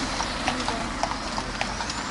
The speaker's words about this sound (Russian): Лошадки, смотри, да? Кареты ходят.